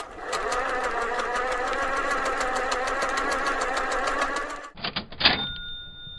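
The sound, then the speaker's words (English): A running computer makes a grinding sound effect: steady whirring, rapid mechanical clattering for about four and a half seconds, then a few clicks and sustained high electronic beeps. “Well, we should still run it. The computer sometimes gets some grease in its wheels. Let's double-check it.”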